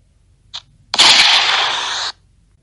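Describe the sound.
A gunshot fired after a struggle over the weapon: a faint short click, then a sudden loud, noisy blast lasting about a second that cuts off abruptly.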